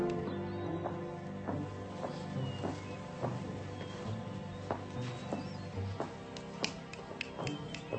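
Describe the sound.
Hooves of a horse clop steadily as it walks into a stable, many soft, evenly spaced steps over a low background hum.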